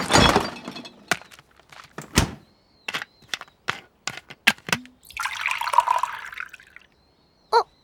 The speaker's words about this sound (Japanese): いや、ペットボトルをコップに移しただけだし。